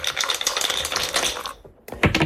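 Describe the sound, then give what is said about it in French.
Three dice are shaken and rolled for a radio board game, producing a dense, bright rattling clatter. A brief pause follows, then another burst of clattering. “vous dites c'est parti, mais ça ne nous suffit pas pour déclencher le lancer de dés, allez-y”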